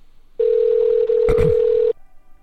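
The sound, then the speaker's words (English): A steady telephone tone from a repeated phone call holds for about a second and a half with one brief break, while a short burst of clicks and noise cuts in near its middle. “I'm gonna keep calling and calling.”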